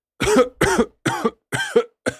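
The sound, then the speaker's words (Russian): Harsh, throaty coughing from a burly man choking on a foul green cloud of stench, five rough bursts in a steady, loud run, the last one cut off at the end. “Начал кашлять здоровяк, пытаясь отмахнуться от зловоний.”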